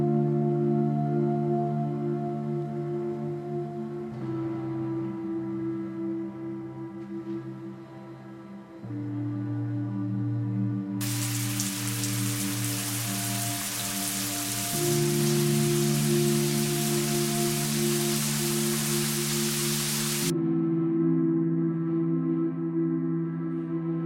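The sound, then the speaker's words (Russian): A shower runs with a hissing spray of water that swells in loudly partway through, beneath steady music. “Принимает душ.”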